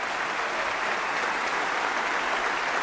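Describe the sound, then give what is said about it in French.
A concert audience at the Opéra Berlioz in Montpellier applauds after Max Bruch's Violin Concerto in G minor, played by a violin soloist with the Deutsche Kammerphilharmonie Bremen. Dense, even clapping holds steady throughout. “La violoniste Hilarion avec la Deutsche Kammerphilharmonie de Brême, dirigée par Ömer Welber, acclamée par le public de l'Opéra Berlioz de Montpellier pour le concerto pour violon en sol mineur de Max Bruch.”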